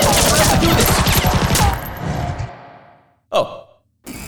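Gunfire from a video game weapon opens with a dense, loud rattle of rapid shots that gradually thins and fades away.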